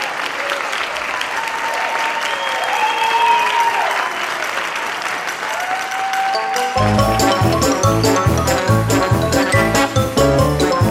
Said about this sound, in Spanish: millones de personas salen a sus ventanas y balcones para aplaudir a los colectivos profesionales que nos están ayudando tanto. Nosotros hoy extendemos esos aplausos a quienes nos hacen reír.